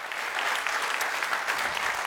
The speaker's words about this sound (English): Yeah, so we can applaud that.